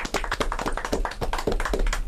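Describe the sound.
Brisk clapping comes from a small group during a school drama club introduction. Distinct individual claps land in a quick, slightly uneven patter, loud and close together, with no voices over them.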